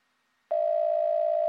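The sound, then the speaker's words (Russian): One steady telephone ringback tone after a number is dialed, lasting about a second with no voices over it, and ending in a brief click. “На 20-й день все-таки сдалась и набрала заветный номер. Не дышала, считая гудки, и совсем не была уверена, что получу ответ.”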